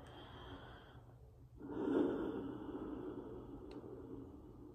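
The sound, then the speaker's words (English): One deep breath is drawn in, a soft, airy inhale that swells midway and then eases off into quiet breathing. It is faint, and no one speaks. “I'm thankful for that breath.”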